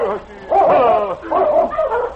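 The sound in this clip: Sled dogs barking and yipping in a few loud, mid-pitched bursts with short gaps between them.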